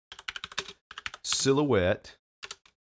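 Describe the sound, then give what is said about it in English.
Computer keyboard typing as a search is entered into Google: quick bursts of crisp clicking keystrokes, a pause filled by a brief drawn-out vocal sound, then a couple more taps. “I'm going to go into Google. This is an experiment. I'm going to type in bath tub.”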